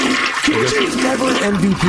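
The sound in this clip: A toilet flush sound effect: steady rushing, gurgling water noise lasting the whole brief clip, with talking over it.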